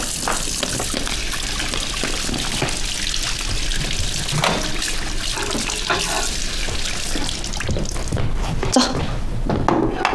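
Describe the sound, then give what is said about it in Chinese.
Tap water runs steadily into a sink while hands are washed, a continuous rushing hiss that persists throughout as people talk over it. “洗手去。 来，洗手。”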